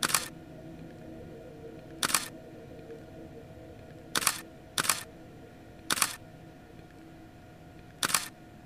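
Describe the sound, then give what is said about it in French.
Camera shutter clicks during a photo shoot: six sharp, dry snaps at irregular intervals, two of them in quick succession, over a low steady background hum, with no voices. “Tu entends les déclenchements de l'appareil.”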